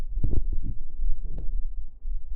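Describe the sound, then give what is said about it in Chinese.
A mother's heartbeat, heard as a few soft, low, muffled throbs over a faint steady hum. “听啊，妈咪的心跳。安心。”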